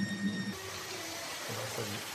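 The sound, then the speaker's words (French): Water flows at a watermill once the wheel has stopped and the sluice gate is shut: a quiet, even rush of water with no distinct events. “Donc là, le rouet vient de s'arrêter. Vous avez fermé la vanne. Et le bruit de l'eau est redevenu le bruit régulier que vous entendez normalement.”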